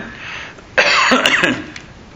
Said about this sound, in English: Excuse me. I got a frog in my throat